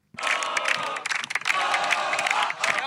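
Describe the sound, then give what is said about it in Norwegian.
A football team's crowd cheers after winning a cup match, with loud massed shouting and clapping. The noise holds for almost three seconds, breaking into choppy bursts near the middle before swelling again. “Dette er lyden av vinnere. Det høres ut som en hel skare med folk.”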